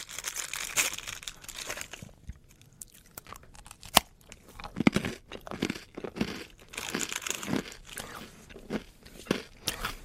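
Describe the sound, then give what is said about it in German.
Crunchy hard rusk (Zwieback), a First World War trench ration, is bitten and chewed, producing many dry crackling crunches in an irregular rhythm. “Ja, liebe Zuhörer, ich muss jetzt einfach mal so frech sein, jetzt auch mit offenem, bzw. mit vollem Mund zu sprechen. Es ist im Prinzip eigentlich, es schmeckt nach ganz normalem, herkömmlichen, schlichten Zwieback.”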